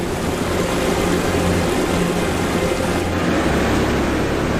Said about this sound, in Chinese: 大量融水流向低处，水流不断汇合变成急流，